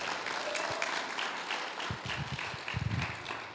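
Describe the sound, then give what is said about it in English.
An audience applauds to welcome a pastor to the stage, a steady, dense clapping that continues throughout with no voices on top. “Give him a hand, would you please?”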